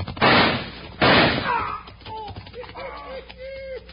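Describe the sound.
Two loud gunshots in a Western gunfight, the shots that knock a gun out of a man's hand: two sharp, broad blasts about a second apart, followed by fainter wavering tones.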